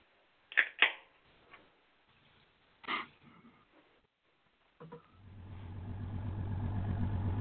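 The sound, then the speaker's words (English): A fishing boat engine trolling for tuna: after a few scattered knocks and clunks, a low motor starts and settles into a steady droning rumble that grows slightly louder to the end. “here comes Dom in a fishing boat. Out there trolling for, tuna.”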